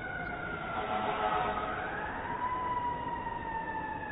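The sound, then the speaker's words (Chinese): A fire engine siren wails on a New York street, a faint, steady wavering tone over a low rumble of road traffic. “这 New York 哎呦，这消防车呀”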